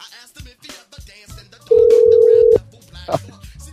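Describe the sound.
A telephone call is placed: a loud, steady dial tone holds for under a second among talking voices, followed by a short electronic beep.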